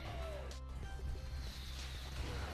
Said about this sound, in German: Boom. Noch eine Granate. Für den.